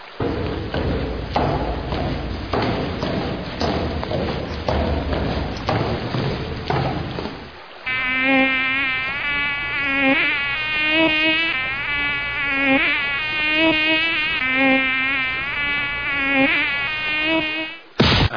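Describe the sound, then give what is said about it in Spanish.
Insects buzz in a continuous, wavering, high-pitched drone that fills the second half, after a denser stretch of noisy rustling. “¡Malditos insectos!”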